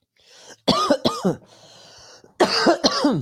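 Harsh coughing from something swallowed the wrong way: four sharp coughs in two quick pairs, with a faint breathy rasp in the pause between them.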